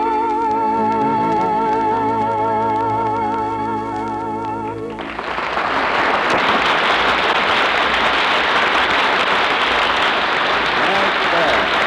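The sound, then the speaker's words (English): Applause bursts in about halfway through, right after a sustained musical passage stops, and continues as a loud, thick clatter of many hands to the end. “But say, I wonder where all that applause came from.”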